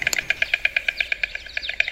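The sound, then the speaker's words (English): A pied crow calls in a quick, even series of many short, high chipping notes at a steady rhythm, clear and fairly loud with little else around. “Chikwangala, the pipe crow known as John Flyer.”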